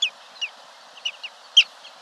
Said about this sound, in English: Most migrate to the Arctic in summer, where many nest on the tundra, along rushing streams or on rocky mountainsides, like this black-bellied plover.